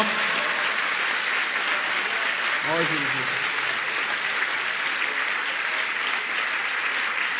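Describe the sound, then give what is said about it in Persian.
An audience at a religious chanting gathering claps with raised hands in a sustained, even wash of applause. A single voice rises briefly near the middle, then the clapping continues steadily to the end. “یک دقیقه همین جوری کف بزنید با دست بالا، مدد بگیر از مولا.”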